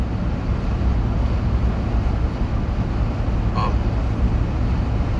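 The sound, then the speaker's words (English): Road noise fills a moving car's interior as a steady, loud low rumble with a broad hiss on top, unbroken and even throughout, with no talk. “As you can probably tell, I'm driving right now”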